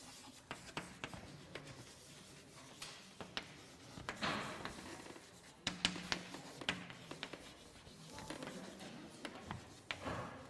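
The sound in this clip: Writing on a board during a German-language maths lecture on partial derivatives: faint, irregular taps and short scratchy strokes, with a few sharper knocks, sparse and quiet throughout.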